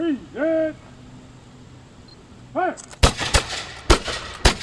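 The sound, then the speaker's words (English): A gun salute fired by living history reenactors after a trail-sign unveiling at FDR State Park in Westchester. Two drawn-out shouted calls come first, then several loud, sharp gunshot cracks in quick, uneven succession. “That was part of a gun salute from Living History reenactors following the unveiling of signs for the Washington-Rochambeau Revolutionary Route National Historic Trail at FDR State Park in Westchester”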